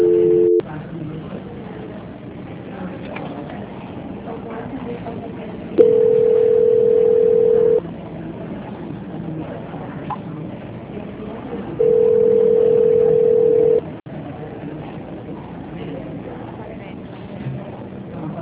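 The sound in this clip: Telephone line tones play during a call transfer, two long flat beeps of about two seconds each, separated by low, muffled line hiss on a narrow-band phone connection.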